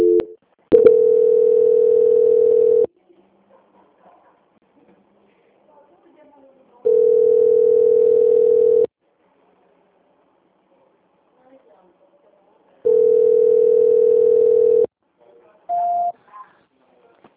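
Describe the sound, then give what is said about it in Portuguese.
Telephone line tones play while a call-centre call about a payroll loan is transferred to another department: three long, steady beeps of equal pitch at regular intervals, with quiet gaps between them, then one short, higher beep. “eu vou transferir a sua ligação para o setor de qualidade, que vai dar continuidade na contratação do seu crédito consignado”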